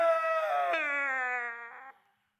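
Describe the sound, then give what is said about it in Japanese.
A man sobbing and breaking down in tears: a sustained, high, tremulous wailing cry that steps down in pitch partway through, fades, and then cuts off. “男泣きに泣き崩れます。”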